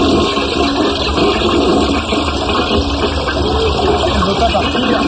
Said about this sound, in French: C'est pas déjà assez bien tiré la chasse.